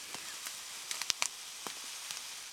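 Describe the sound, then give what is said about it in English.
Half a cup of cane sugar poured in, heard as a soft, faint granular hiss with scattered light ticks and patters spread across the pour, with no talking. “All right, let's do the sugar. So here is a half cup of sugar, more or less.”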